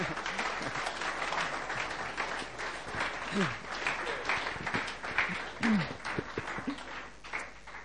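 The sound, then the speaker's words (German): An audience gives a hearty round of applause for a two-person team, with many overlapping claps sustained for several seconds and a few voices briefly rising through the clapping. “Ich denke, ihr dürft gern dem Team, diesem Team Roberts und Roberto, mal einen kräftigen Applaus geben. Die haben das super zusammen gemacht.”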